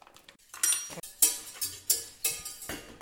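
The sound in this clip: A spoon stirs sugar into a ketchup and vinegar mixture, clinking and scraping against the bowl in a steady run of about six strokes, clear and alone.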